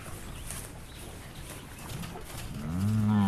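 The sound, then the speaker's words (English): A calf in a field moos once near the end, a low, droning call that swells up out of faint, steady background noise. “The delinquent calf was finally corralled into the field.”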